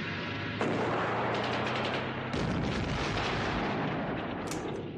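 Heavy gunfire and explosive blasts from a wartime battle in which a tank is hit and set ablaze: a dense, continuous roar broken by two sharper, heavier bursts, with no voices.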